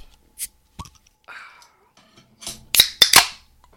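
Sharp cracks and fizzing hisses of beer cans being opened, softer clicks and rustles first, then a few loud pops with spraying hiss close together near the end.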